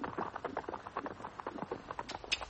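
Hooves of a horse pulling a hantour carriage clip-clop along a narrow, bumpy road in a quick, steady rhythm of many sharp hoof beats.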